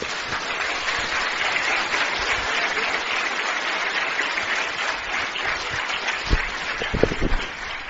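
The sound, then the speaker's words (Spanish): Sustained applause from an audience at a religious sermon in El Alto, La Paz, Bolivia, with steady dense clapping throughout and a few sharper, louder claps near the end. “Den un aplauso al Señor.”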